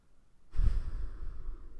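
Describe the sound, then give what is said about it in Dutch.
A deliberate deep breath taken together during a guided breathing moment starts after a short near-silence and continues as a steady, airy rush of air to the end. “Haal af en toe bewust adem. Laat het nog een keer samen doen.”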